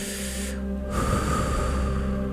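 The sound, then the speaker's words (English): Deep breathing in and out during a relaxation exercise: one long, soft, breathy swell over a steady low hum. “Breathe in and out. Nice deep inhales. Nice deep exhales.”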